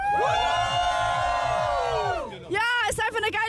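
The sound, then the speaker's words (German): Festival crowd at the Rainbow Festival by the Fühlinger See lake in Cologne. A long, sustained, high cheer from many voices holds for about two seconds, then breaks into shorter excited whoops and shouts. “Also ihr hört's, die Stimmung hier beim Rainbow Festival in Köln am Fühlinger See ist richtig klasse.”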